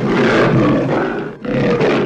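A lion roars in two long, loud, rumbling bursts separated by a brief pause, with no voices over it.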